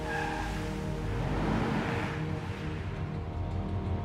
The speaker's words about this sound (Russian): По дороге едет черный автомобиль. Заезжает в подземный паркинг.